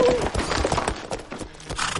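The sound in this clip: Horse hooves clip-clopping as a rider comes to a stop and dismounts: a busy, uneven run of hoofbeats set in a dense, rustling mix of other noise.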